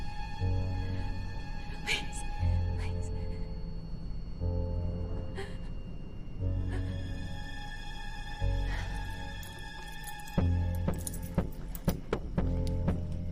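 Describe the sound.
Keys jangle while handcuffs are unlocked, with a few scattered light metallic clinks and rattles over a steady low droning background.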